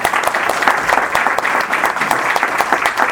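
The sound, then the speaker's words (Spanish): A live audience applauds at a music talk session, a dense, loud and steady clapping that holds evenly from start to end without a break. “Un aplauso para Ricardo Bravo.”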